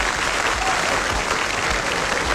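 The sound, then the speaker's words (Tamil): Audience applause for a singer after a song on a Tamil music stage show, a loud, even, continuous roll of clapping from a large crowd. “அவருக்கு ஒரு பெரிய பலத்த கைத்தட்டல் கொடுத்துடலாமா?”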